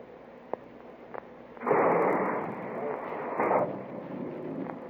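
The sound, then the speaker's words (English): Torpedo firing sound effects from a submarine launch sequence: a rushing, hissing blast lasting about two seconds that swells again near its end, over a steady low hum with faint clicks before it. “Let's hear what else is on this torpedo sub-sequence.”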